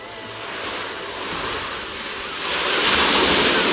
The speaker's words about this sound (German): So, wir haben ein bisschen das Fenster aufgemacht. Das geht nach hinten zum Meer raus.